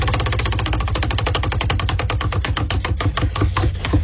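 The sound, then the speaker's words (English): A prize wheel spins with many rapid, evenly spaced clicks in a loud, steady ratcheting stream that lasts throughout. “So let's spin the wheel and see who it invokes.”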